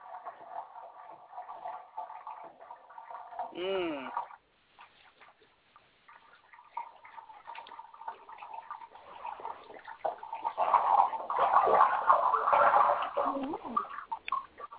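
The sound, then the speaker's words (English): Running water hisses steadily, rising and falling in strength, while people talk over it. “Okay, do not mind the running water for about 2 seconds.”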